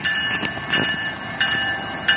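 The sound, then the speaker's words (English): An Amtrak train passes in daylight, a steady loud rolling rumble carrying a high, thin whine, with a few faint clacks over the short span. “So the train has lights on, even though it's during the day”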